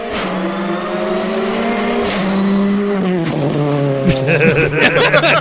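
Turbocharged rally car accelerating hard at a rally, a loud, continuous engine roar with a few abrupt pitch drops as it shifts gears, with no talk over it.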